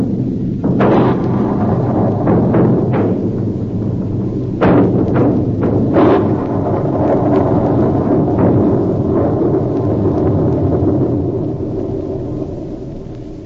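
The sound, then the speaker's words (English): Hand grenade and munitions explosions destroying an antique shop: a long, heavy rumble broken by several sharp blasts, staying loud before slowly fading at the end. “Count Padova attempted to throw a hand grenade. I was forced to shoot. The shop was destroyed in the explosions that followed.”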